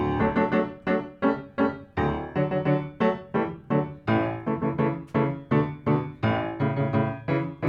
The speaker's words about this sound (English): So if I play it like in a metronomical, very rhythmic way, as it stands, it sounds like this.